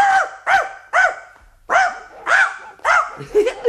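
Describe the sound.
A voice imitates a big dog barking: a rapid series of loud, harsh, bark-like bursts with a short pause partway through, alone with no other sound.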